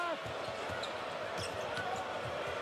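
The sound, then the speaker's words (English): Basketball dribbled on the court during a college game featuring Wisconsin: several low, thumping bounces in a steady rhythm beneath a constant roar of crowd noise. “Dribbles up top”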